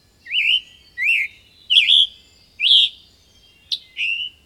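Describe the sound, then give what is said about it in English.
Songbirds calling in a wetland: a series of clear, high chirping calls, each a short whistled note, repeated at fairly even intervals with brief silences between and a quiet low background. “You might also hear some other birds frequently found here.”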